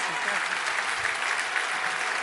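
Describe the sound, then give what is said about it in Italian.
Steady, dense audience applause follows a speaker's talk at an event, loud and unbroken throughout with no gaps or voices on top. “Un grandissimo applauso a Eugenia Rechi”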